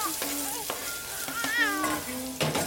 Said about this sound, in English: Like your mom cooking in the kitchen.